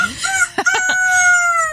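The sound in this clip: A rooster crows loudly in one cock-a-doodle-doo: a few clipped, stuttering syllables open it, then a high, drawn-out final note holds to the end.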